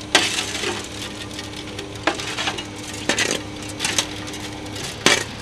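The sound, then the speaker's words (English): Shovels scoop asphalt that slides down a chute from the back of a truck into a pothole on a main road. Several sharp scraping clanks stand out over a steady gritty rustle. “Two men with shovels are scooping asphalt into a hole the size of a large serving plate. The asphalt falls out the back of a truck down this nifty slide.”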